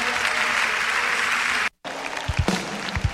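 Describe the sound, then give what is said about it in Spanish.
Loud, dense audience applause at a worship service, continuous clapping broken by a brief moment of silence, then resuming with a few low thumps. “manden el mejor de los aplausos.”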